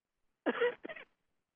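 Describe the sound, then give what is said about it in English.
A man clears his throat in two quick rasping bursts, the first longer and louder than the second, with silence on either side. “Sorry, I got something in my throat there.”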